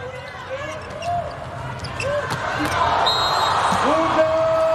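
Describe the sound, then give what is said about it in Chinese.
A volleyball serve during a Brazil versus Turkey international match: the ball is struck with a brief, sharp smack over a steady crowd roar that grows louder, while a voice talks. “罗萨玛利亚来发球”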